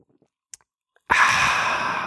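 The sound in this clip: A few faint mouth clicks, then a long, breathy, satisfied exhale after taking a drink of a just-opened beverage, sustained and fairly loud to the end.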